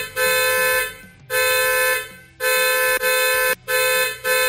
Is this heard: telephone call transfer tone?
no

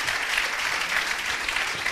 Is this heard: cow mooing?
no

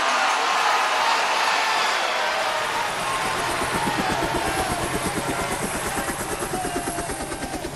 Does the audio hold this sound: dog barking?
no

